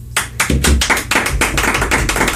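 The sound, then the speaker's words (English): Audience clapping breaks out in a quick, dense run of many sharp claps that overlap and hold at an even level for about two seconds, with no talk over it. “Clap.”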